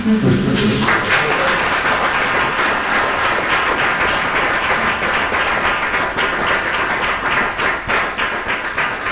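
An audience applauds after a poetry reading, with dense, sustained clapping that fills the whole stretch at a fairly even, loud level and thins slightly toward the end.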